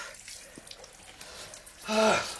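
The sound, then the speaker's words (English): Water splashes as a man washes his neck, face and hands in a kitchen: a short, loud rush of water near the end, with only faint low background sound before it. “comes rushing into the kitchen and washes his neck, face and hands”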